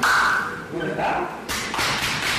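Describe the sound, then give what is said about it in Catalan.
Hard back slaps as men hug in greeting, with sharp smacking hits landing among their talking voices. “els cops aquests que escolteu no és que estiguin apallissant a ningú, és que, com ja sabeu, per mantenir la seva masculinitat ferma s'han de pegar molt fort l'un a l'altre quan s'abracen a l'esquena”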